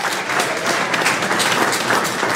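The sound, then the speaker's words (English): A church audience claps their hands in praise during a worship service, a dense, steady wash of many hands that holds at an even, loud level throughout. “And if you can testify to that, clap your hands and give God some praise.”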